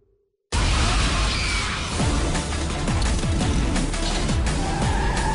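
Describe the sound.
A car driven erratically roars in abruptly after a moment of near silence, a loud, dense engine and road rush with brief squealing, sweeping tones over the steady noise.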